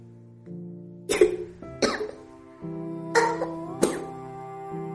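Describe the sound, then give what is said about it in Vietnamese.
A woman gives a dry cough in four sharp, raspy bursts, spaced in two pairs over a steady, low sustained tone. “Cổ họng giống như bị lửa thiêu đốt vậy. Noãn Tâm khó chịu đến mức ho khan.”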